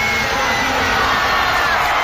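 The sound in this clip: A huge crowd of about 50,000 people cheers and roars at a stadium concert in Barcelona's Olympic stadium, a dense, continuous wall of shouting and whooping.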